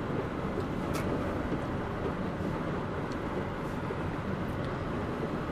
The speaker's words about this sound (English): Well, I'm gonna get in this lane. Sorry, I'm driving and doing this at the same time.